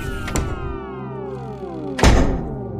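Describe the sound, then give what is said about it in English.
A white door closing on a room: an early soft knock, then one loud, heavy thunk near the end over sustained, slowly falling tones. “A white door closes on the room with the apple.”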